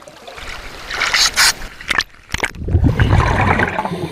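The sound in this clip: Underwater ocean ambience around glowing, floating cave-like pavilions: murky, watery rushing and trickling with a few sharp bursts of bubbling, then a steadier churning wash that continues to the end.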